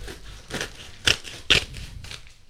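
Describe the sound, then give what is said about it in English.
Cutting open a package, heard as a few crisp, crunchy snips and crackles spaced irregularly, the middle two sharpest and loudest. “I'm not sure which end to cut here, so I'm just going to cut.”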